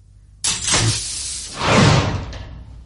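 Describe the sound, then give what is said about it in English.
A door in an oak-panelled room being unlocked and opened with its knob turning. A sudden loud onset gives way to a broad rushing scrape, which swells again midway and then fades out. “A key in the lock. The doorknob swivelling.”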